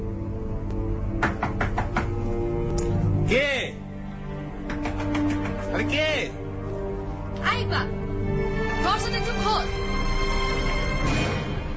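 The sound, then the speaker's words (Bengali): Knocking on a bedroom door by a mother looking for her son: several groups of sharp raps under a speaking voice. “ঠিক এই সময় ইকবালের মা ছেলের খোঁজে বেডরুমে এসে দরজায় নক করলে।”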